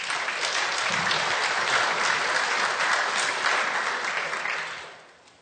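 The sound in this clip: Audience applause welcoming a speaker who is about to talk about work in Ukraine: steady, dense clapping throughout with no voices, holding level and then fading away over the last second.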